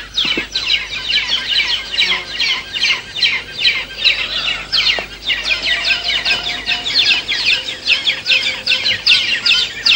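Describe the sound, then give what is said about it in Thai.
Brown hornbills call noisily at their nest while feeding, with several helper birds queuing and taking turns to feed. Dense, continuous chattering of many rapid, harsh calls overlaps throughout, with no voices. “นกเงือกสีน้ำตาลจะผลัดกันเข้าป้อนทีละตัวด้วยการต่อคิวรอหน้ารังมีบางครั้งที่ตัวหนึ่งยังป้อนไม่เสร็จแต่มีตัวอื่นบินเข้ามาเตรียมจะป้อนต่อและส่งเสียงร้องเอะอะอยู่”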